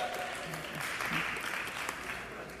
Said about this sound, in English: thank you for clapping at my stupidity